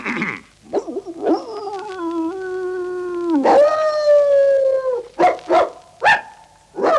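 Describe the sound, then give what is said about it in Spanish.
An old dog howls an alarm signal: a long, wavering, tonal howl, then shorter howls and a few sharp barks in uneven bursts, loud and with no voices. “Aullido largo, dos cortos y un guau. Llamada de alarma, de Londres.”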